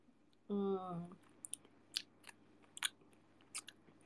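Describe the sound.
Chewing of shrimp with mango sambal: a brief voice at the start, then several faint, sharp crunching bites at irregular intervals.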